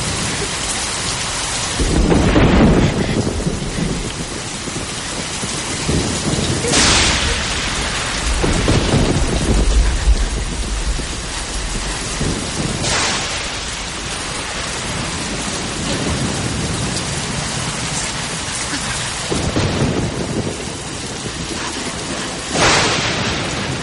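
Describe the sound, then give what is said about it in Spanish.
Heavy, continuous rain pours down, soaking a frightened woman's hair and dress. Several deep rumbles of thunder roll through the steady, dense hiss of the downpour. “mientras la lluvia empapa su pelo y su vestido”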